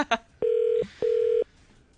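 Outgoing telephone call: a brief dialling beep, then two long, steady, high ringing tones with a short gap between them, and no talk.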